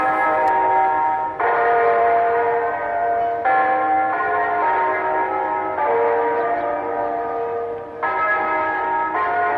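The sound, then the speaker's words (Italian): Church bells peal loudly and continuously, their overlapping metallic tones ringing on without a break, with a fresh set of strikes every couple of seconds. “Un augurio, delle campane, facciamo le campane, dai.”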